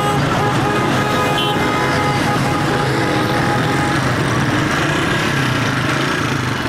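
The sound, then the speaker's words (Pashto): A convoy of around fifty military vehicles, including tanks and Ranger vehicles, rolls through city traffic among assorted cars, producing a dense, unbroken roar of engines that stays loud throughout. “په ښار کې د خلکو او ډول ډول موټرونو او وسایطو په منځ کې د پنځوس په شاوخوا کې دغه پوځي موټرونو ډېر خلک نندارې ته راوویستل او دا کاروان یې په حیرانتیا د خپله مخه تیر کړ.”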